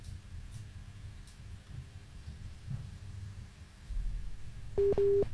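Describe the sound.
A busy tone after a phone call is cut off: a couple of short, loud, steady beeps at the very end, following a faint low rumble of line noise.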